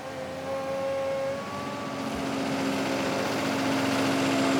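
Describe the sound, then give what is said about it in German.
Deep engine drone of a semi-trailer truck straining to push a stuck vehicle up a steep, tight bend, a steady continuous rumble with a sustained tonal whine and no break. “Erneut muss der Sattelschlepper schieben, diesmal vergeblich.”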